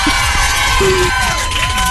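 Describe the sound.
A live audience cheers with loud, continuous crowd noise of shouting and excited voices, a few higher sustained tones riding above the din.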